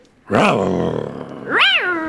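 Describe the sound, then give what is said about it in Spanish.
A person imitates a tiger's roar with their voice: a long, loud, growling tone that holds steady and fades slightly, then a second, shorter roar that swells and drops in pitch. “Necesitamos tu rugido. El rugido de tigre.”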